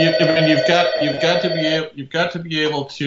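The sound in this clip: An office telephone rings with a loud, steady electronic trilling tone that holds a fixed pitch, breaks off briefly near the middle, then resumes.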